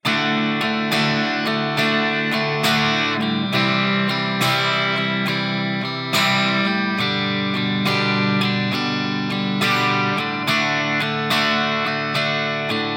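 Electric guitar with a slightly distorted tone plays 12-bar blues rhythm chords, ending with a final turnaround back to the five chord. Steady, evenly spaced strums run continuously with no voices.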